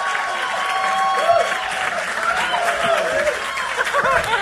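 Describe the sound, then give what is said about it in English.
An audience applauds and cheers as the hosts are welcomed on stage at a live show, with steady clapping and scattered whooping voices throughout. “put your hands together, make some noise, and welcome to stage your hosts for the evening”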